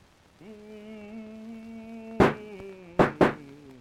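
Three sharp gunshots ring out upstairs above a cork-cutting business in a dramatized 1861 London murder mystery: one bang, a pause, then two in quick succession, over a steady low humming drone.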